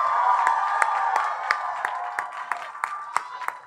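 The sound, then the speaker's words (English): A crowd gives a standing ovation, with dense applause and cheering. The roar gradually thins while sharp individual claps keep landing at a steady rhythm. “A standing ovation.”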